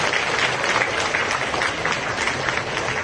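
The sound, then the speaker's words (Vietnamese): Large round of applause from Buddhist followers gathered in the courtyard of Giác Ngộ temple during its restoration: loud, dense, continuous clapping that holds steady from start to finish with no talk. “thứ nhất xin tất cả chúng ta hãy dành một tràng vỗ tay thật lớn, thật mong nhiều”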